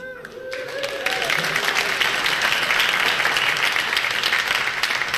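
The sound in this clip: Audience clapping at a live show after mention of a marathon winner, starting after a brief voice at the outset and then swelling into a full, steady round of applause that carries on evenly to the end.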